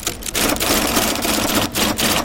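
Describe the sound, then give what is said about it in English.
Clattering mechanical noise from a restored giant IBM punch card machine running in a computer museum, a dense, steady rattle that stays loud throughout with only a few brief dips. “At the end of that hallway is a giant IBM punch card machine.”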